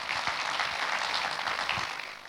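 Applause greets officials invited onto the stage at a formal ceremony. The clapping is a faint, even wash that holds steady and then slowly tails off, with no talk over it.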